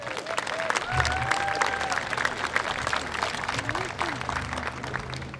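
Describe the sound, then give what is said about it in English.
An audience applauds to welcome a speaker at a pro-life gathering, with dense, steady clapping that fills the whole stretch. “Please give Rod Taylor a warm welcome.”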